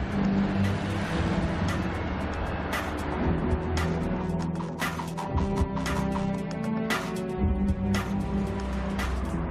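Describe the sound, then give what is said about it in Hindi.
A car engine drones through a chase with a steady, loud rumble and a few sharp clicks and knocks on top, and no break in the noise. “हम अभी तक उसी car का पीछा कर रहे हैं।”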